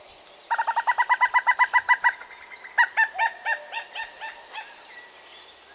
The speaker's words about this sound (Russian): Самка кукушки издает такой утробный звук, такой... Я даже не знаю, как это изобразить. Ее слышно гораздо-гораздо реже. Она обычно кричит в ответ на песню самца. Вот, послушайте.